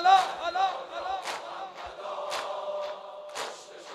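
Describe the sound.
A concert crowd shouting and cheering together, a sustained mass of voices with a few louder surges of yells throughout.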